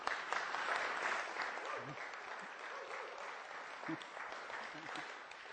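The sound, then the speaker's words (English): A round of applause from an audience welcoming a guest, quiet and continuous, with a dense patter of many hands and a voice briefly audible over the clapping. “Why don't you give him another round of applause?”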